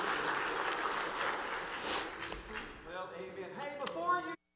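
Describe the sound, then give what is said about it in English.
A church audience applauds during a morning worship service. The steady wash of clapping gives way to tonal music that carries on briefly before cutting off. “Give the Lord a hand this morning, and you may be seated.”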